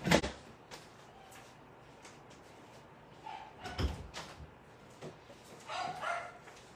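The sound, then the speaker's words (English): Two dogs, Hurley and Daisy, bark back and forth at each other in a few sharp, scattered barks separated by quieter gaps, the loudest coming at the start and midway. “My dogs are talking to each other. So Hurley, who is no longer a puppy, is talking to Daisy.”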